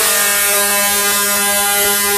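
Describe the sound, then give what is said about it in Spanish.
A horn sounds in one steady, loud blast. Its buzzy, harmonic tone holds for about two seconds without a break. “Vea, a mí me gusta, por ejemplo, este pito, vea. Este pito me encanta”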